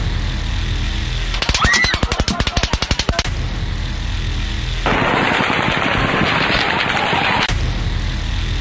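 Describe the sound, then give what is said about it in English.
Automatic gunfire during the Las Vegas shooting: a rapid volley of many evenly spaced shots, then after a pause a longer, denser stretch of harsh, crackling fire that cuts off sharply. “Keep going, everybody, keep going. He was shooting everybody, and there was dead people everywhere. We have an active shooter.”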